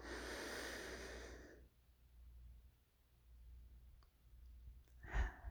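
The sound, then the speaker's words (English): A deep breath in during a guided breathing exercise, a soft, airy inhalation lasting over a second, then near silence, with another brief breathy sound near the end. “Let's take another deep breath in.”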